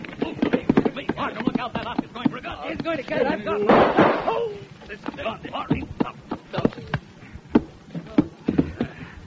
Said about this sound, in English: I'm sorry I had to shoot that Oscar, but it was neither him or me, and I'm selfish that way.